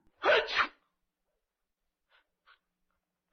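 One loud sneeze bursts out at the start, followed by quiet and a few faint small sounds.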